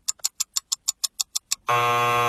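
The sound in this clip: A quiz game buzzer marks the end of time: a quick, steady run of sharp ticks gives way to one loud, harsh, sustained buzz that holds to the end.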